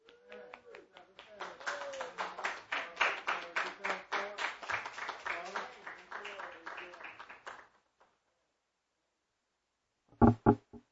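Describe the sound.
A church audience applauds to welcome a speaker before a Sunday morning sermon: dense, rhythmic clapping with voices mixed in. It fades out and stops, and after a pause a few sharp, isolated claps follow.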